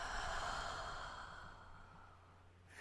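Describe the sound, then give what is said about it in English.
A single deep, slow breath during a guided breathing exercise, mostly a soft, airy exhale that fades out gradually. Quiet, with no talking. “deep breath in and out.”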